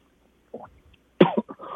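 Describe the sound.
Coughing after something went down the wrong way: a brief throaty sound, then a sharp, loud cough burst followed by a few smaller hacking bursts.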